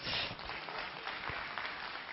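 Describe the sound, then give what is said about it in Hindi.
Audience clapping fills the whole stretch at a talk where the speaker has asked people to raise their hands: a dense, muffled patter of many hands, steady and fairly faint, with no distinct single claps standing out. “कोशिश के लिए तालियां मत बजाओ”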